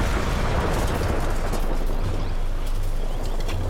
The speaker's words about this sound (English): Wow. Blast. You can feel the pressure wave even at this distance.